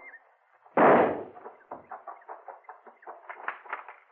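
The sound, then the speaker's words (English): Gunshots fired at a tunnel: one loud, sharp blast, then a quick run of many fainter, rhythmic pops. “Flip a few shots at the tunnel while I make a run for those rocks there.”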